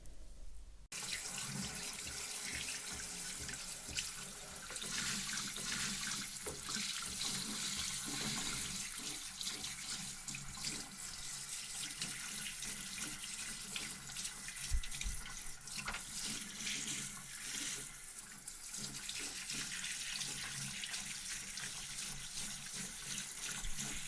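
Tap water runs into a sink in a steady, unbroken stream while a face is rinsed clean, a soft, even hiss of flowing water that holds for the whole stretch without pause.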